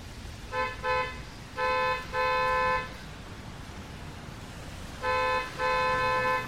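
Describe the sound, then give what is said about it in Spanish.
A car horn honks persistently, sounding six blasts in three pairs. The first two blasts are short, and each later pair has a brief honk followed by a longer, loud one. “Alguien tocaba la maldita bocina del auto. Unos bocinazos espantosos, persistentes.”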